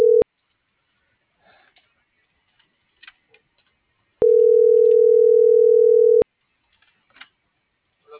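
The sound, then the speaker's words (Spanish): Ringback tone of an unanswered telephone call: one steady, mid-pitched tone lasting about two seconds between long silences, with the tail of an earlier ring at the start and faint clicks in the gaps. “No, todavía no contesta San Juan.”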